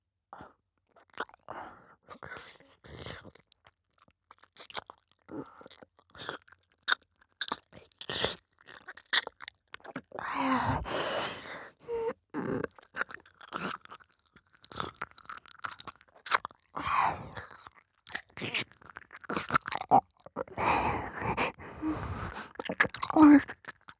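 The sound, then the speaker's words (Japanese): Gentle nibbling and chewing mouth sounds without real eating: many soft wet clicks, smacks and small crunches in an irregular, continuous stream, some denser bursts, quiet overall. “大丈夫。本当に食べたりしないよ。甘噛みしてるだけで楽しい。”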